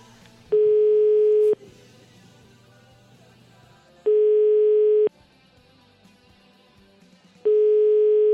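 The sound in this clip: Ringback tone of a telephone call to a mobile phone number: three long, steady beeps of about a second each, separated by longer silent gaps, over a faint low background.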